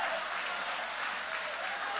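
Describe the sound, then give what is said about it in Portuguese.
An audience applauds in a Portuguese-speaking church service after a Bible reading. The clapping is faint, even and unbroken for the whole stretch. “podem aplaudir aquele que vive, aquele que reina para sempre.”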